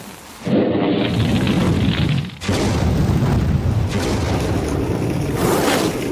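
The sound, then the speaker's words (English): A coat set on fire goes up in a whoosh of flame: a loud, rushing roar begins abruptly, dips briefly, then surges again and keeps roaring steadily to the end. “Oh, it's really going up. Wow. Yeah. And that really burns very quick. It's gone. It's like went up in a big whoosh of smoke and flame.”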